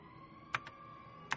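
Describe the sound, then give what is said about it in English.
A sloth detective's claws tap slowly on a computer keyboard in a quiet police station: a few faint, unevenly spaced clicks over a low steady hum. “All was quiet in Biotope City's police station. All, that is, except for the slow tap, tap, tap of Two-Toes O'Malley's claws on his computer keyboard.”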